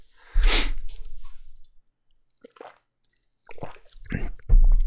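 Crunching and munching of junk food being eaten, in a few bursts of moist, crackling chewing separated by short pauses.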